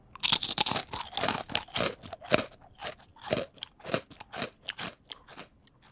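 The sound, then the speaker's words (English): Teeth crunch through fried prosciutto tortellini in many crisp, crackling bites that arrive in an irregular rhythm of sharp bursts, fairly close and alone without talk. “Munching is eating with this loud chewing sound. What you hear is my teeth crushing the tortellini, and this is called crunching.”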